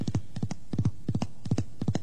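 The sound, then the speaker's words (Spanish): Hoofbeats of a rider's horse coming on at full gallop toward a man standing at a ranch gate on the Barinas plains of Venezuela: about six quick groups of two or three low thuds each, in an even rolling rhythm, with no voices. “un hombre contempla con interés a un jinete que se le acerca a todo galope.”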